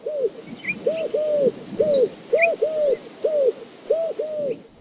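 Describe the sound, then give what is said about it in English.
Eurasian collared dove cooing in a steady, rhythmic series of low, hollow coos grouped in short repeating phrases, with a few faint higher chirps from other birds above them. “That's the call of the Eurasian collared dove.”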